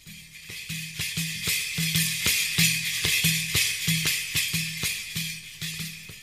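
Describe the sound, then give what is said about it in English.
A mazhar, a very large tambourine fitted with cymbals, is played in a steady, driving rhythm: many deep thumping strikes under a continuous bright wash of shimmering, rattling jingles, loud and alone with no voices. “the rhythms by playing the Mazhar instrument, which is a very large tambourine, and it sounds like this.”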